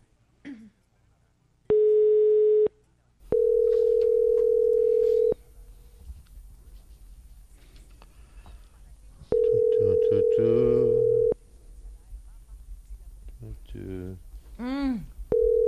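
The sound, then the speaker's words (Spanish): A telephone line tone sounds during an unanswered call to a listener: three steady, even-pitched tone bursts, each lasting one to two seconds, separated by gaps with people talking between and after them. “Intentamos llamarlo.”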